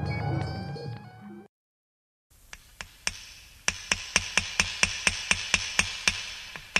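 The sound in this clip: A hammer drives nails into the wall of a sukkah, landing many sharp, ringing strikes in a steady, fairly quick rhythm after a brief quiet gap.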